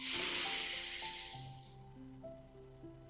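A deep inhalation during a guided breathing exercise for phobia, heard as a steady breathy hiss that fades over about two seconds above soft sustained background music.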